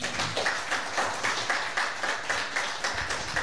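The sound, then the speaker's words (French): Audience applause at a French Catholic gathering on national Catholic radio, a loud crowd clapping in a steady rhythmic pulse, the swells repeating at a regular brisk tempo from start to finish. “Très bien qu'on puisse les acclamer, s'il vous plaît.”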